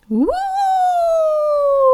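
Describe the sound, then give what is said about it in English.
A voice imitates a monster's howl, one long note that sweeps sharply upward, then holds high and slowly sinks. It is loud and sustained, with nothing else heard alongside. “Trembling with fear, Howler howled higher than before.”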